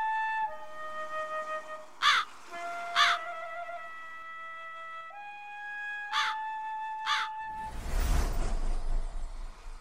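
A crow gives four harsh caws in two pairs over sustained musical tones, followed by a burst of broad rushing noise at the end.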